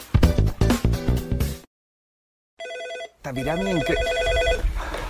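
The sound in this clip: Telephone ringing for an incoming call to an office: one short burst of a bright electronic ring that follows a stretch of music after a silent gap, with a voice starting right after it.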